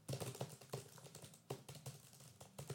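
Fingers type on a computer keyboard, producing quiet, irregular clusters of quick clicks. Short bursts of keystrokes are separated by brief pauses.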